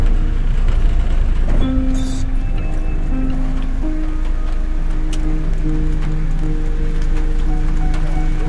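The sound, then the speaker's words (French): Rain patters on the roof of a camper van at night, a steady, dense hiss of drops that stays even throughout. “Donc là, c'est le doux bruit de la pluie dans ma camionnette.”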